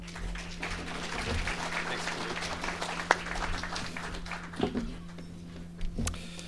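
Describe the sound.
An audience applauds to welcome a guest speaker. Moderate, steady clapping runs over a constant low hum, with a few sharper claps standing out toward the end.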